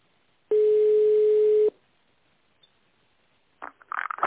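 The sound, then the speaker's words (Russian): A steady single-pitch telephone tone plays during a call transfer to an internal office extension, sounding for about a second before it cuts off into near silence. “Перевод звонка на внутренний номер 5015.”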